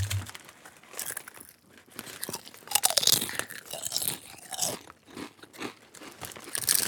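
Crunching of a cheap, Canadian-made crunchy snack being eaten over its box: many irregular, crisp bites and chews mixed with crinkling of packaging, at moderate loudness with no talk.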